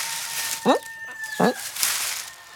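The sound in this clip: Hens cluck in a straw-lined henhouse, giving two distinct, sharp calls against a quiet background.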